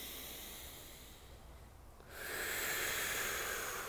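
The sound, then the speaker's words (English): Breath pushed out through gently pursed lips during a breathing exercise: a soft, airy hiss that swells noticeably stronger partway through and then holds as a steady rush of air. “We're going to really push that breath through some gently pursed lips. And let's inhale. Let it go.”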